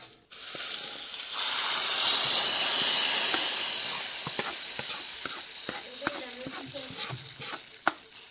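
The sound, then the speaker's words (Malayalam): Mustard seeds, curry leaves and dried red chillies fry loudly in hot oil as prawns are stirred in. A steady hiss fades gradually, then many crackling pops and stirring scrapes follow. “ആദ്യമേ കടുകിട്ടതിന് ശേഷം കുറച്ച് കറിവേപ്പിലയും പിന്നെ ചുവന്ന ഉണക്കമുളകും ചേർക്കുക. അത് വരുമ്പോഴേക്കും നമ്മൾ വേവിച്ച് വെച്ചിരിക്കുന്ന ഈ ചെമ്മീൻ കൂട്ടിലേക്ക് യോജിപ്പിക്കാം.”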